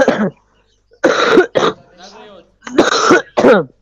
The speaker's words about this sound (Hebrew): וואו, תקשיב שיעול. תקשיבו השיעולים. זה ממש כואב.